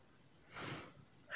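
One quick, breathy rush of air through the nose and mouth, soft and faint, almost snort-like, swelling and fading within half a second, with the start of another breath rising at the very end.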